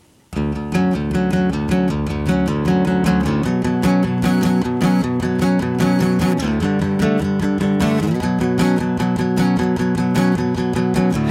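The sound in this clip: A band plays a simple, repeating riff from one of its songs, loud and steady across the whole stretch, with dense layered instruments and no voices.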